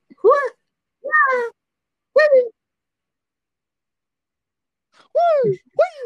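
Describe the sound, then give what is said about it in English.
A voice imitates Liu Kang's fighting noises from Mortal Kombat with five short, high, squealing yelps. Three come about a second apart, then after a pause two more swoop sharply in pitch. “But the noises most hilarious that come thing. Out of he, Liu Kang, whenever he's the fighting, he just sort of makes these noises like.”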